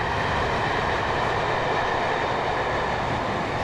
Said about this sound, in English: I think that was the same one that went that way, wasn't it? It was definitely train.